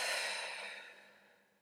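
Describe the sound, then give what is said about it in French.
A deep, slow exhale during a relaxation breathing exercise: a soft, airy breath out that is loudest at the start and fades gradually over nearly two seconds, alone and without talking. “Alors prends une inspiration profonde. Et expire.”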